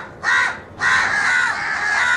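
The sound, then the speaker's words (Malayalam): A crow cawing loudly, giving two harsh, raspy calls: a short one, then a longer drawn-out caw, with no talking. “ഒരു കാക്കയും ഭക്ഷണം കണ്ടാൽ ഒറ്റയ്ക്ക് കഴിക്കുകയില്ല, തൻ്റെ സഹജീവികളെ കൂടി വിളിക്കും.”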